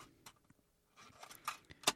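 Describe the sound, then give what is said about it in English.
Faint plastic clicks and rattles as a white cassette tape is handled and flipped over to side B, a few scattered soft taps building to a sharper final click. “Let's flip it. Side B. Here we go.”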